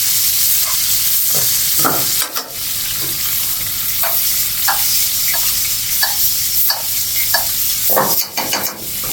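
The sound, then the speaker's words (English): Steak frying in a pan with brown butter sauce gives a steady, loud sizzle throughout, with occasional brief utensil scrapes or clinks against the pan. “We're going to cook it for a few minutes here. We're going to bring it to about 125 to 130 in the turn of temperature.”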